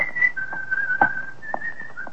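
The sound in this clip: Someone whistles a bright, clear tune while walking along a street. The whistling is steady and melodic, with a few short sliding notes, and no talking.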